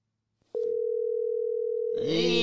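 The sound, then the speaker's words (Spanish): Telephone dial tone at the start of a phone call: after a faint click, a steady single-pitched tone starts abruptly and holds unbroken. A richer, brighter sound joins it near the end. “Y a la primera llamada telefónica.”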